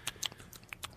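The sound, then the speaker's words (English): A piranha chewing as it gnaws off a limb: faint, wet, crunchy bites and gnawing clicks come in quick, irregular succession. “The piranha's still eating. Okay. So I would say to you... That's the sound of the piranha.”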